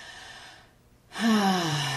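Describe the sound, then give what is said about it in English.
A deep, conscious breath taken during a guided meditation. Faint airy breathing gives way to a louder, fuller exhale with a voiced sigh that slides downward in pitch and lingers to the end. “Let's take one more conscious breath.”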